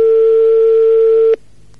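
An outgoing telephone call rings with one loud, steady, mid-pitched tone lasting over a second before it cuts off abruptly into near silence.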